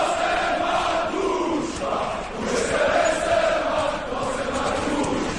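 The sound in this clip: Crowd cheering at a village square or sports field: a sustained wash of many voices, moderately loud and fairly steady, with a short lull partway through before it swells again.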